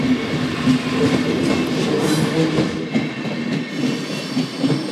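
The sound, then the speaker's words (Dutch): A passing international train with a mixed set of wagons produces a steady, loud rumble with clattering wheels throughout, and no voices are heard. “dat is dan één trein, één, één verbindingje naar Praag. Ja, nog eentje. Ja, die gaat naar, deze gaat waarschijnlijk naar Wenen.”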